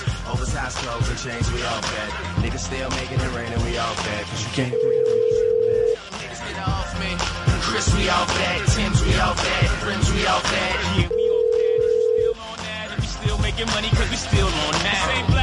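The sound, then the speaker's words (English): Ringback tone on an outgoing telephone call: two steady, even tones about a second long, several seconds apart, over a loud, dense background of noise. “But you're probably calling somebody, right? Yep, it's ringing.”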